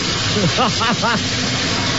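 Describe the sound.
A shower's running water gives a steady hiss throughout, while people talk over it.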